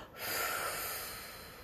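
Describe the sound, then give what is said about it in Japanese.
A single deep breath during a voice-training breathing exercise: a soft, airy rush of air that swells quickly, then slowly tapers off. “いらない空気を吐きます新しい空気を吸って体の中のいらないものも出しちゃう”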